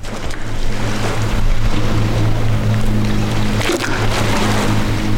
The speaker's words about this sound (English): Right now in North Georgia, at the Notley Dam, built and completed during World War II, and you're hearing the Notley River rushing up against the dam's rocky edge.